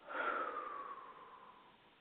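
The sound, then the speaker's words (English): A single deep breath during a guided breathing exercise: one long, airy breath with a faint whistling tone that drifts gently lower as it fades away over about two seconds. “Again, deep breath in. Exhale.”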